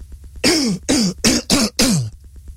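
Five harsh throat-clearing bursts come in quick succession, each rasping with a falling pitch, fairly loud and with no talk around them.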